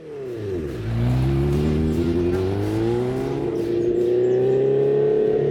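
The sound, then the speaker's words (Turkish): A motorcycle engine starts and settles into a steady running rumble on fresh fuel. The low, full tone holds loud and continuous, and the pitch lifts slightly as the engine revs. “Motora bineli birkaç yıl oldu ama bu motorun sesi çok hoş geliyor. Titreşimler çok hoş ve tok.”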